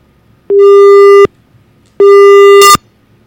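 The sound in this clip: A telephone busy tone from a caller's failed call: two loud, steady beeps of the same pitch, each held just under a second, with a short silent gap between them.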